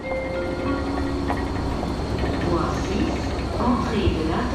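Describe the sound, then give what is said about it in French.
Ambience of a busy Swiss city railway station crowded with travellers and under major renovation works, a steady low rumble of trains and machinery with murmured voices throughout. “Bienvenue à la gare de Lausanne.”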